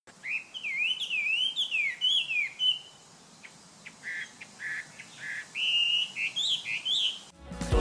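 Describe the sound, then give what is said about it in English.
Strong, clear, varied song of a Chinese hwamei, or painted-eyebrow bird, a popular cage songbird: loud, fluid whistled phrases with sliding notes, then a run of short repeated bursts, and bright whistles again toward the end. “Its song is strong, clear, and varied. Let's hear it.”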